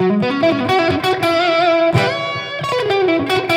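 Electric guitar through heavy, maximum-gain distortion plays a solo line of sustained, harmonically rich notes with some wavering vibrato, loud and alone.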